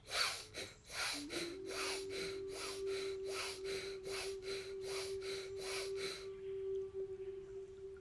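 Rapid, forceful in-and-out breaths of a paced breathing exercise: many sharp, evenly spaced breath pulses for about six seconds over a steady low tone, then the breathing stops.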